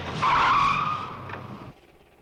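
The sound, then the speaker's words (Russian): A large black car pulls up to an entrance with a loud rushing tire squeal that peaks early, then tapers and cuts off into near silence. “К подъезду подкатила большая черная машина.”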